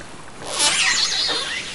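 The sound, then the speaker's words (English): Killer whales calling underwater, captured by a hydrophone as they swim past. Thin, high, wavering squeals and whistles rise over a steady watery hiss, swelling in the middle and then easing. “Those are killer whales. They were recorded in April swimming by the hydrophone that the National Park Service has installed”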